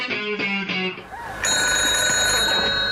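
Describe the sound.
A telephone rings with a few quick trilling bursts, then a steady bright ringing tone carries on alone.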